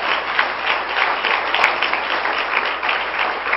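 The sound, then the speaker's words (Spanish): Applause from a church audience during a sermon, a dense, steady wash of many hands clapping at an even level for the whole stretch, with no talk over it. “Den un aplauso fuerte al Señor”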